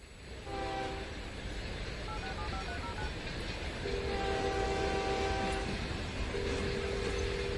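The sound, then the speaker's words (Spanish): A train at a station, a steady loud roar of rail noise with sustained tonal horn-like notes sounding over it at intervals. “aquí a punto de abordar el tren”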